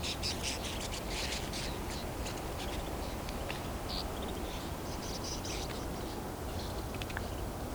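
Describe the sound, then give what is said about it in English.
A flock of snow buntings by a roadside fills the air with many overlapping high, thin chirps and twitters over a constant low rumble, with no talking. “So we got a flock of snow buntings on the side of the road, about to fly over me here.”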